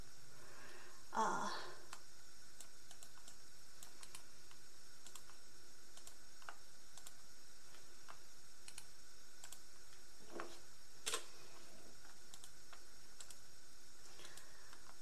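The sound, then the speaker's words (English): Someone types names on a computer keyboard, producing faint, sparse clicking keystrokes spread across a quiet background, with a few slightly louder taps standing out. “I'm gonna type in their names and see if they say anything.”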